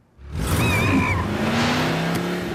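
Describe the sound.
A dune buggy engine revs as a sound effect. It swells in from near silence into a loud, sustained, rough roar that stays steady to the end.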